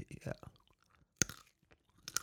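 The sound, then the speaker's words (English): Crunching on plain almonds: a few faint, crisp crunches with soft chewing between them, quiet and irregular, with one sharper bite standing out midway. “some ASMR. So that's the almonds right there.”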